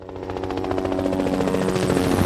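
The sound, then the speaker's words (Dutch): A trauma helicopter takes off from a hospital in Amsterdam. Its loud, rapid rotor chop beats in a fast, even rhythm over a dense engine whine, growing slightly louder throughout. “Lifeliner 1 stijgt op vanaf het VU Medisch Centrum in Amsterdam. De traumahelikopter reageert op een alarm”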